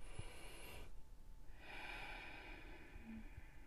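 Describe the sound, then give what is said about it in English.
A slow, deep inhale through the nose as a breathing demonstration, with the mouth closed. A soft, airy hiss swells in after a short pause and draws out for about two seconds. It is faint and steady, with no talk. “I'm doing that now just so you can get a feel of what that means. You know, as we take a deep inhale”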